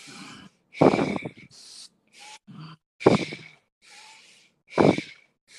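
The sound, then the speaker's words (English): Rapid, continuous breathing in and out through the nose at a steady pace: a series of rushing breaths, several loud and broad, alternating with softer ones, with no talking. “Stay with this breath for 30 more seconds. Again, doesn't have to be your fastest, just a steady pace, connecting the inhale to the exhale, continuous breaths.”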